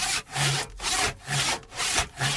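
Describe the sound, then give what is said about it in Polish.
Saw cutting the lower branches off a Christmas tree: a loud, rasping back-and-forth with several strong strokes in a steady rhythm, and no talking. “Zwariowałeś? Choinkę piłujesz! Te dolne gałęzie tylko.”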